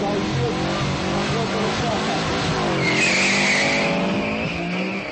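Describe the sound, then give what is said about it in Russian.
Subaru and BMW cars launch from a drag race start with loud revving engines and squealing tires, a continuous roar that swells midway and fades slightly at the end. “И снова на старте Субару против БМВ.”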